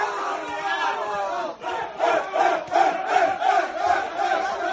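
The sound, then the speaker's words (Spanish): Players cheer, shout and celebrate together in a football team's dressing room at the rival's stadium after a victory. A dense crowd of voices roars continuously, rising into loud rhythmic bursts of chanting in the second half. “Ha publicado el Barça un sonido de el recibimiento de Xavi a los jugadores en el vestuario del Bernabéu después de la victoria.”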